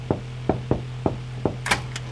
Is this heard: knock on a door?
yes